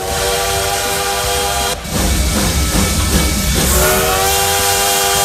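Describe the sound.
A loud, sustained train whistle rings out as a bullet train departs, its steady harmonic tone riding over a dense rumble, with a brief dip partway through before it carries on at full strength.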